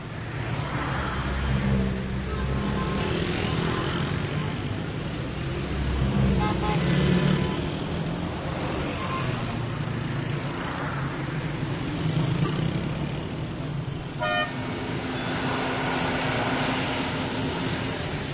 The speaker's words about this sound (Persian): یه عالمه ماشین و موتور